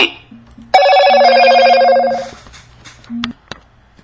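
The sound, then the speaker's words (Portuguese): A WhatsApp incoming call rings loudly: one sustained, bright ringing tone lasting over a second, followed by a short lower beep and a sharp click. “tem uma interrupção aqui agora no WhatsApp, alguém nos ligou aqui.”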